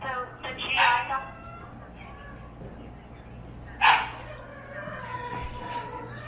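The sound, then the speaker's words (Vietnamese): Two sharp barks from a dog at an inn, a few seconds apart, sounding loud and harmonic over a constant low hum. “Trong cái nhà trọ này có một con chó, nó là vậy.”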